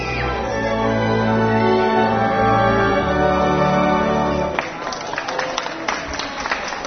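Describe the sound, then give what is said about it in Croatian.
Children applaud at a Belgrade Philharmonic concert, a held orchestral chord ending before many scattered claps break out and continue steadily. “Aplauz i uzvik bravo na kraju svake kompozicije poklon je mališana koji neobičnim koncertima prisustvuju u velikom broju.”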